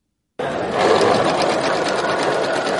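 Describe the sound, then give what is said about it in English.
A sewing machine stitches headscarves at a volunteer community center in Christchurch, New Zealand. It starts abruptly and runs in a steady, loud whir of rapid stitching pulses. “Volunteers come together Sunday, sewing headscarves at a community center in Christchurch, New Zealand.”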